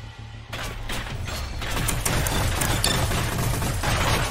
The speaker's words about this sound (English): Notice the shots being fired and being hit.